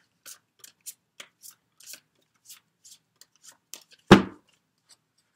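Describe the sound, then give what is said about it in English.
Tarot cards being shuffled and drawn make a string of short, soft flicks and snaps, then one louder sweeping slap near the end before quiet. “Let me get two cards on this past life relationship”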